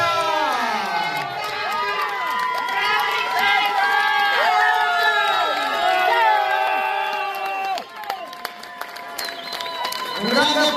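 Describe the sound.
A crowd at a women's cycling festival applauds and cheers loudly, with whoops and children's shouts over continuous clapping. The sound dips briefly near the end, then swells again.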